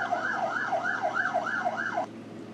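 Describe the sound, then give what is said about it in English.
Emergency vehicle siren wailing in a city, a fast rising-and-falling tone that repeats steadily and then cuts off abruptly near the end, leaving a constant low background rumble. “As emergency vehicles clearly are observing them and responding to them.”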